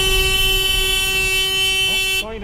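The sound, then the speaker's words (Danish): A car horn sounds one long, loud, steady blast at a driver about to run a red light at a pedestrian crossing. It holds a flat tone for about two seconds and then cuts off as a voice begins. “Nej, der var faktisk en, der var ved at køre over for rødt. Men blev dyttet af, så nu holder han tilbage for rødt.”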